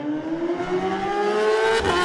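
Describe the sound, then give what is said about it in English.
A superbike engine at a road-race start revs hard as the rider pulls away. The loud, continuous engine note climbs steadily in pitch throughout, with no voices over it. “The revs are rising. He's away.”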